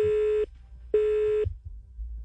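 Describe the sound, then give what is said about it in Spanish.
A telephone busy tone sounds after a phone call drops: two flat, steady beeps of about half a second each, separated by a short gap, followed by faint low background noise. “Se, cortó la llamada, de la senadora Clara López Obregón”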